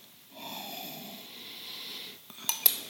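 A soft sniff at an oil container, then two sharp clicks near the end as its lid is set back on. Quiet overall.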